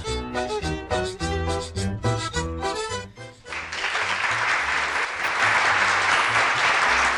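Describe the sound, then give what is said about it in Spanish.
Applause sound effect played in on a cumbia radio show, following a stretch of music: dense, bright clapping comes in about halfway through and holds steadily loud to the end. “Se hacen sonar esos aplausos.”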